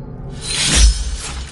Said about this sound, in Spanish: El hombre blande las espadas y las envaina.